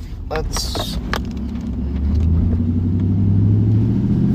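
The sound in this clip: A car engine rumbles low and steady while driving, growing louder and fuller in the second half, with a few brief higher noises early on.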